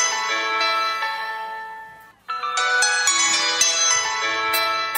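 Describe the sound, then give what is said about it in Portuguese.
A mobile phone rings with a bright electronic melody of clear, tonal notes. It plays loudly, stops for a short moment partway through, then starts again. “O celular já tá tocando”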